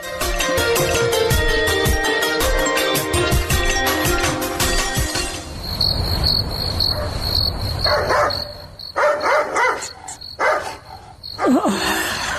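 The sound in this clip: A dog barks in a few sharp bursts during the second half, over steady, high chirping of crickets that fills the whole clip.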